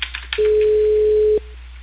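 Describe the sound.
A telephone line tone plays while a customer is called about a reported cable fault: a few faint clicks, then a single steady, mid-pitched tone of about one second over a thin phone-line hiss.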